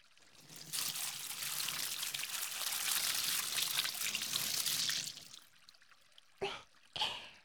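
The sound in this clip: Water poured for washing, a steady quiet stream that runs for about four and a half seconds before stopping, followed by two short splashes.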